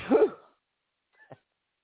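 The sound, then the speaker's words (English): A single short, voiced sneeze bursts out loudly. After a pause of about a second, two faint brief clicks follow. “That was a bad timing for a sneeze, huh?”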